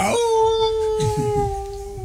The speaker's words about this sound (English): This was from 2015 next, where he was teaching me how to do a wolf impression.